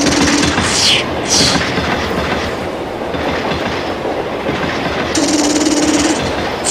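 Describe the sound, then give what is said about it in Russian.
A freight train passes on a parallel track beside a moving passenger train, making a loud, continuous rumble with rhythmic wheel clatter that holds steady across the whole passage. “делает вид, что стреляет в проезжающий по параллельному пути товарняк.”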